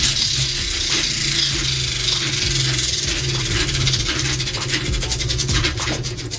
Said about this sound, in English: we're going to spin the money wheel.